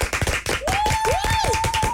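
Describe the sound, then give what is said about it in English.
Group clapping as a tribute: a run of hand claps at an uneven pace, with a sustained tone running over part of it. “I feel like we need to do a slow clap for her, for what she did for me while I was leaving for London.”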